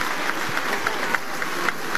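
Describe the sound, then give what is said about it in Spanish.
Applause in Peru's Congress as lawmakers greet the president before her address to the nation, a continuous rustling patter of many hands at moderate volume, with a few sharper claps standing out. “En tanto, los aplausos continúan a la mandataria, quien va a proceder en estos momentos a dar el mensaje a la nación.”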